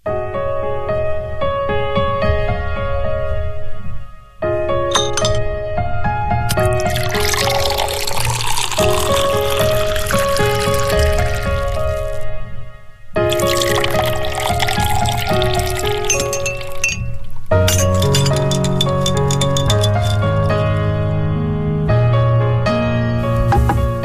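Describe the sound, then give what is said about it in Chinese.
Pouring and sloshing liquid are heard as a cocktail of gin, sweet vermouth, Campari, ice and an orange slice is mixed. The sounds come in two long noisy stretches under continuous music. “这是你的鸡尾酒，它是由金酒、甜味美思、金巴利酒、冰块和香橙片调成的”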